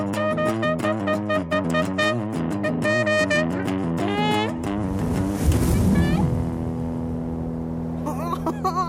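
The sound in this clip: A splash of someone jumping into the Weißer See lake bursts out midway, a broad rush of water over continuous music with voices.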